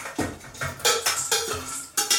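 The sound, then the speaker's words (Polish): Olive-oil-toasted seeds poured from a pan onto a kitchen sieve to drain the oil: several sharp metallic clattering bursts in an uneven rhythm, each followed by a brief rattling decay. “Teraz ta ziarenka wysypię sobie na sitko, żeby mi przypiekła oliwa.”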